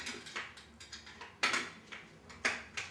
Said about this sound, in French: Mais moi, en fait, je visse dessus et tu sais, mon tournevis, il tourne, mais pas dans le dessus.